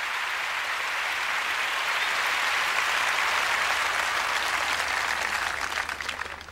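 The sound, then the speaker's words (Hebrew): Audience applause opening a recording of a scene from the opera Don Giovanni, a dense, even wash of clapping that holds steady, then thins and breaks up toward the end. “מתחיל במחיאות כפיים,”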